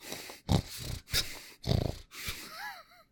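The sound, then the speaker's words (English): A person with bronchial issues takes loud snorting breaths into a microphone: four rough, noisy inhales and exhales in quick succession, ending with a brief whistling wheeze. “Literally sounds like snorting. To be fair, I have fucking bronchial issues.”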